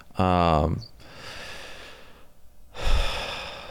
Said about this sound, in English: That was a nice breath.